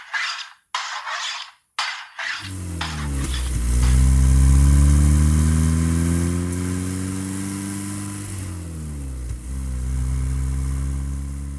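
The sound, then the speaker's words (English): A car engine drones steadily while driving through the American South, a low harmonic hum that climbs in pitch early, holds, then dips briefly and recovers; a few sharp knocks come just before it starts. “I keep driving on through the south, down the Dixie.”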